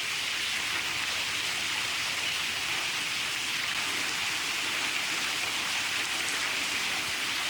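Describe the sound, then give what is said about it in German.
Heavy rain pours during a thunderstorm, a dense, even hiss of countless drops that stays loud and steady throughout, with no thunder or voices. “Und hier wirkt es jetzt gerade so, als ob noch ein zweites Gewitter jetzt durchzieht, weil der Regen nimmt wieder zu.”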